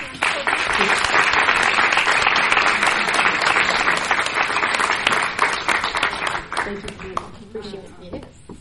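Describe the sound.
An audience applauds as a guest named Deb is called up and welcomed, with loud, dense clapping that holds steady and then thins and fades near the end, with some voices emerging.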